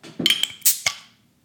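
A metal bottle opener prying the cap off a beer bottle: a few sharp, bright metallic clinks and clicks in quick succession, fading out after about a second.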